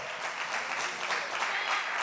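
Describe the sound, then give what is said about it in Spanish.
Congregation applauding during a church service, a brief burst of many hands clapping at moderate, fairly soft level, even and continuous with no break. “Y a su nombre, dele un aplauso a Jesús. Que Él vive.”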